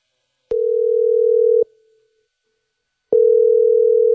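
Ringback tone of an outgoing telephone call: a steady mid-pitched tone sounds for about a second, pauses, then starts again, loud and alone.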